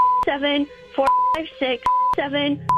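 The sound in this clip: A telephone is dialed to reach a switchboard. Short, steady keypad beeps come at regular intervals, and a person talks in the gaps between them.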